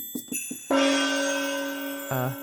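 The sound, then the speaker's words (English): Synthesized chimes from a MIDI drum kit's standard sound set: three quick, short pings, then a long ringing bell-like tone that slowly fades, and a final brief chime. “Oh, that was interesting chimes here.”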